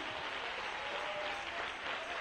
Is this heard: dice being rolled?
no